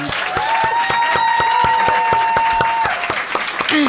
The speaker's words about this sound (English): And how about a hand for Laura House?